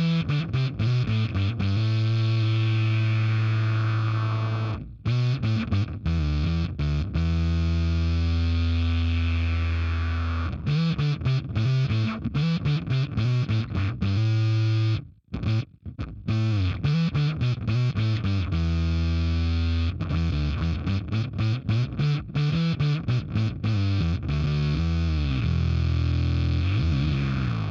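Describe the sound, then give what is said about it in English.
A bass guitar with dead strings runs through a synth effect, giving a thick, distorted, buzzy synth tone. Both short and long notes play loudly and steadily, with a couple of brief gaps between phrases. “And just the combination of them all, I think it's a really cool sounding solid synth sound that can cover kind of all bases”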